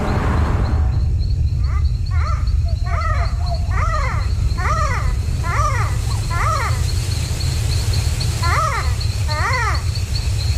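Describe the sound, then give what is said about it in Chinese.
Calls of a small nocturnal primate in rainforest at night ring out as many short, repeated yelping notes in clusters, over a constant high insect-like whine and a low rumble. “这是鹰猴的声音，它是一种小型灵长目动物。”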